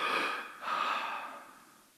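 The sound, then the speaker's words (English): A deep breath drawn and released in two airy, breathy pushes with no talk. The first is short and the second longer, slowly fading away. “God just gave me a breath.”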